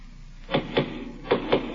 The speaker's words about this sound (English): Oh, my goodness. Somebody's at the door, Leela. What if they find us here?